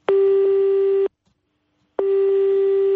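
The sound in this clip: A telephone tone sounds after a number is dialled and nobody answers: two loud, steady single-pitched tones about a second long, separated by a pause of roughly a second.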